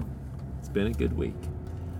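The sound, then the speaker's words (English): A steady low rumble from a car driving home runs through the whole clip, with a brief stretch of talking over it. “And I am driving home.”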